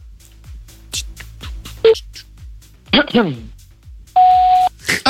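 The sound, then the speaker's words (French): Telephone tones during a prank call, where dialed beeps lead to an answering machine: a short tone, then a long, steady, loud beep, with people talking around them. “Oh, c'est le pire répondeur. Vas-y, j'avais un doute sur celui-là. J'ai cru qu'il répondait.”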